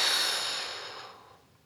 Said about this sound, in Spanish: prepárate para meter un poco más de aire y esta vez vas a visualizar hasta dónde puede llegar tu aire. Sácalo con fuerza